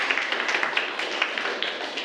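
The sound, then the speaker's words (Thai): Students in a classroom applaud a classmate, a soft, quick patter of clapping from a small group that keeps an even pace. “ปรบมือให้เพื่อนครับนักเรียนนะครับ”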